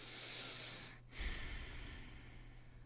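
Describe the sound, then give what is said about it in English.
A person drawing a deep breath, a faint, airy, snort-like rush of air heard alone without talk. “I did a deep breath.”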